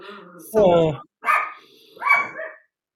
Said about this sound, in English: My dog is going to start barking now because my daughter's coming home.